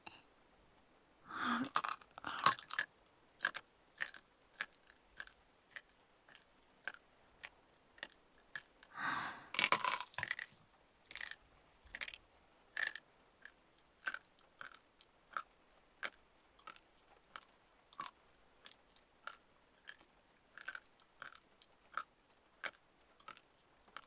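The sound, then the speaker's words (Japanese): Crunchy chewing of elbow cartilage: many crisp, irregular crunches and bites, faint and on their own, with denser clusters near the start and around the middle. “肘の軟骨、コリコリしてる。”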